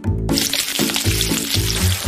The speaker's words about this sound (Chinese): 将这个热汁和锅巴接触的一瞬间啊，它这个油水互相碰撞，就产生出那种噼里啪啦的声音